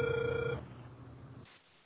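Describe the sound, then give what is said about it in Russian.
A telephone ringing tone sounds while a call is being dialed. One steady electronic tone holds for about half a second, then cuts off and leaves faint line hiss. “Алло, продолжаю дозвон. Не отключайтесь.”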